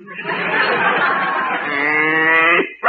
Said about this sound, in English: My cow could have been the best cow in the show, but there was a blot on her record.